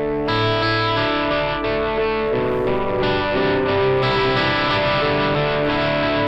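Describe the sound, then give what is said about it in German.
Amplifier compression and distortion thicken a loud, sustained chord played into the front of the amp. The tone is saturated and harmonically rich, holding a constant level as the chords change a few times. “Und ich schiebe das hier hoch. Dann habe ich es jetzt vor dem Amp. Jetzt ist es erstmal schon mal viel lauter, ja, weil der Amp ja komprimiert und zerrt.”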